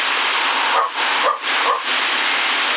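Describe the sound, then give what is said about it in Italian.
Dog barking in a few short, yelping bursts through the steady hiss of a CB radio transmission on the 27 MHz band, with the voice-band static continuing between barks. “Zitto, zitto, che ti ammazzo quel cane, mamma mia.”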